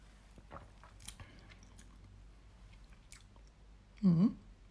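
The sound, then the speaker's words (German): Someone bites into and chews an apple: a few faint crunches come first, then one loud, crisp bite near the end, with the background otherwise quiet. “Gut, wir probieren Apfel.”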